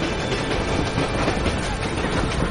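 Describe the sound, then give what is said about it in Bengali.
Train wheels and clanking iron of a slowing train make a dense, steady rumbling roar that fills the whole clip at an even loudness, with no distinct single clanks standing out. “তারই মধ্যে ক্ষীণ ভাবে শুনতে লাগল মন্দিভূত ট্রেনের চাকার আর লোহা লক্করের শব্দ।”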